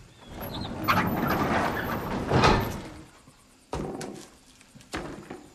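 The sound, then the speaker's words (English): A large wooden barn door slides open with a long, broad rumbling scrape that lasts a couple of seconds, then fades. Two sharper knocks follow on their own. “He peers through the gap into the darkened interior, then slides open the door.”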